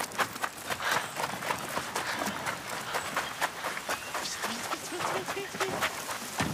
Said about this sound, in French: Il soulève un canoë et quitte le hangar en gloussant. Il trottine jusqu'au plan d'eau.